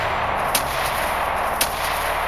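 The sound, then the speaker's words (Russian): Gunshots crack from nearby bushes at a pack of wolves: two sharp, bright bursts about a second apart, each short and clipped, over a steady low rumbling background. “когда из ближайших кустов внезапно раздались многочисленные выстрелы”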